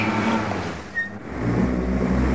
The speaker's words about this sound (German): Jetzt fährt er noch mit seinem Schnapskarren über deinen Sack Trauben um.